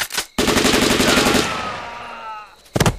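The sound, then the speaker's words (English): Uzi submachine gun fires a rapid burst of automatic shots lasting about a second. The loud, dense rattle is followed by a fading ring. “Uzi does it.”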